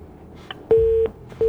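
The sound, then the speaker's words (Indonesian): Telephone tones after a radio call-in line disconnects: a faint short blip, then two steady low-pitched beeps, each long and loud with a gap between them, in the pattern of a busy or disconnect signal. “Terputus, dicoba lagi ya, jangan malu-malu, masih lebaran.”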